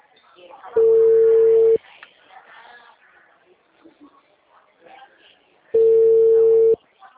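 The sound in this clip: Two steady, one-second bursts of a telephone ringback tone sound on an outgoing phone call, separated by a few seconds of a person talking.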